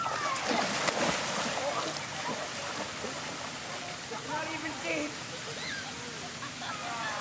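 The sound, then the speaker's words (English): People swim, race and splash in a plaza fountain, making a steady, loud rush of churning water with voices faintly mixed in throughout. “But when they get to the Fountain of Freedom, they swim.”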